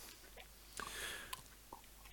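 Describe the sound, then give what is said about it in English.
Close-up chewing and biting as someone eats a sandwich leaning into the microphone: soft, faint mouth noises and a few crisp crunches and clicks. “Now we have a mukbang stream as well. The most popular. Leaning into the microphone, eating a sandwich.”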